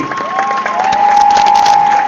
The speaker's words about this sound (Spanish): Bien, así que bueno, un fuerte aplauso para todos